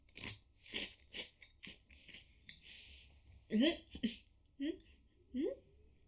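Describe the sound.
Crunchy bites and chewing of an avocado soy sauce flavored food with a hint of wasabi: several sharp, dry crunches in quick succession, then people talking.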